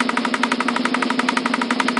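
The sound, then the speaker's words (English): A spun prize wheel ticks in a fast, steady stream of loud, evenly spaced clicks that keep the same pace throughout. “Sir, can you please spin the wheel?”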